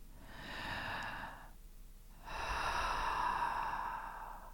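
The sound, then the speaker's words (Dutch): Breathing in and out through the mouth during a guided throat-awareness exercise: two long, airy breaths, the second louder and longer, separated by a short silence. “Adem maar een paar keer in en uit door je mond.”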